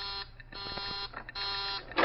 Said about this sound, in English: That's the warning buzzer. It means that someone's coming out.